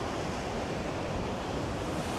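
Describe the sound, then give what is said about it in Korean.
Surf breaks hard against a rocky, cliff-lined coast on a rough day. It is a steady, loud roar of churning water with wind noise over it, and no separate crashes stand out. “굉장히 위험하고 파도도 엄청 무섭게 치네요 오늘.”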